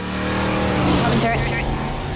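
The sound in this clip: A car drives by with a loud, dense engine roar that swells toward the middle and stays strong to the end.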